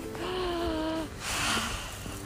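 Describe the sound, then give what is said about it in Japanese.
A deep breath, drawn in and let out by someone who has grown hot and is winding down. It sounds as a soft, breathy rush of air that swells and then fades. “ちょっとここら辺で深呼吸して終わりますか”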